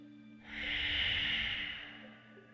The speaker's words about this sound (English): Double inhale into the chest. Long, strong exhale.